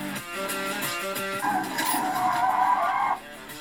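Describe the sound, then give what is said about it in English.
Car tires skid as a car fishtails through a sweeping corner in a racing video game. A droning engine tone runs throughout, and a sharp mid-pitched tire squeal joins midway, holds for about two seconds, then cuts off. “Shit, I'm fishtailing like a bastard.”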